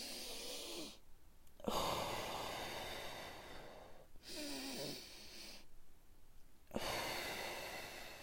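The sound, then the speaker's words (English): Slow, deep breathing, in through the nose and out through the mouth, during a short meditation: four quiet, breathy airflow sounds of a few seconds each, separated by brief silent pauses. “And just breathe deep, from your nose, breathe out your mouth”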